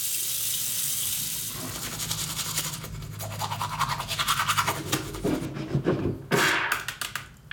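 Running tap water hisses, then a toothbrush scrubs in many quick rhythmic strokes as a teacher brushes children's teeth at a sink. The water gives way to the brisk, uneven brushing.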